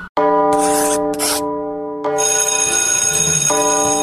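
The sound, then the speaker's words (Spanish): A bell rings with loud, sustained, bright tones. Brief hissing bursts sound early on, then the steady ringing continues to the end. “Ya tocó la campana.”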